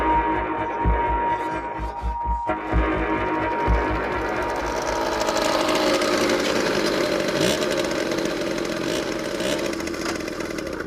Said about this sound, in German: seid ihr mit dem Mofa-Fahren fertig?